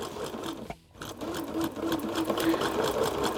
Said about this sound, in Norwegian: Akkurat nå kan det være at det sys om bare det over det ganske land for å få bunader ferdig til nasjonaldagen. Ja, det sys om bare det, hører vi her.